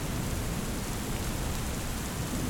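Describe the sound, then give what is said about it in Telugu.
Heavy rain pouring down at night on a street, water streaming off the eaves into a drain below; a dense, steady roaring hiss that never lets up, with no voices. “వర్షం విపరీతంగా కురుస్తోంది సూరు మీద నీళ్లు ధారగా కింద కాలువలో పడుతున్నాయి”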